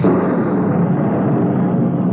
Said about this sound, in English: Send a blast of wind to fan my hate. A thunderbolt to mix it with.